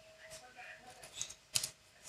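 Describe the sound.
Soft clicking of computer keyboard keys as someone types an email: a few faint, uneven taps, quiet throughout.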